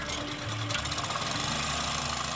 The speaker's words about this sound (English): The compressor pumps air into fabric pontoons attached to the trap skids, which rest on the sea floor.